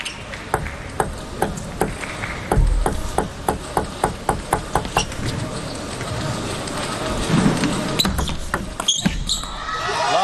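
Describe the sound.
A table tennis ball is struck back and forth in a serve-and-return rally during a match, making a long run of sharp, bright pings at a quick, steady rhythm, with a busier scuffle of sound near the end.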